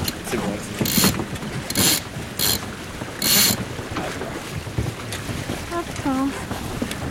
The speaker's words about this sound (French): On envoie la voile avant. C'est bon.